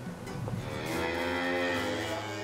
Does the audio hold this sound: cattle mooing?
yes

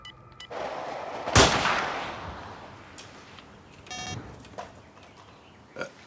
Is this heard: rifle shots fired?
yes

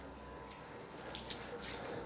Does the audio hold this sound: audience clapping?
no

